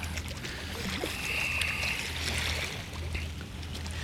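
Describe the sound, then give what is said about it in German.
A ship on the horizon gives off a low, steady engine drone beneath continuous washing waves along a stone groyne, with a few faint high bird calls. “mich nervt dann trotzdem dieses Schiff am Horizont und überall diese Motorengeräusche.”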